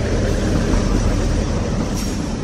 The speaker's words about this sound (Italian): Eccolo là, no? Il treno che arriva.